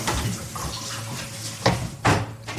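Garlic being washed under running tap water in a kitchen, a steady hiss of flowing water with a few louder splashing bursts near the end.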